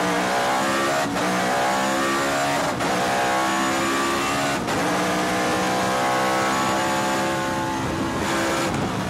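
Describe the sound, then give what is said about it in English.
A race car accelerates hard out of the turn at the end of a straightaway, early in the race on still-cold tires. Its loud, steady engine whine climbs, broken by a few brief dips as it grabs gears. “So you come across the turn at the end of the straightaway, and now he's just going to grab gears.”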